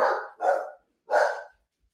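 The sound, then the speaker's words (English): A dog gives three short, harsh barks, the first two close together and the third after a pause, with no talking. “The dog agrees. The dog loves it. The dog loves it.”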